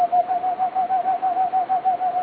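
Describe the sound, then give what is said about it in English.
A man imitates a boreal owl call with a rapid, even run of many low, hollow hoots. The hoots sit on a steady pitch and are pulsed in a quick, regular rhythm, with no other sound. “How can a man learn to call so convincingly like a boreal owl?”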